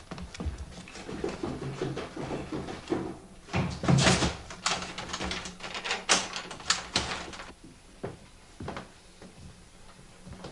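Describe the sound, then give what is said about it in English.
A door being opened: a faint run of clicks, knocks and rattles, some sharper and louder in the middle, then thinning out into a few scattered taps near the end. “another door that has to be opened”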